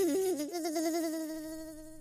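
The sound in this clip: A fly buzzes in a steady, nasal drone whose pitch wavers and jumps at first, then holds level as the sound slowly fades slightly.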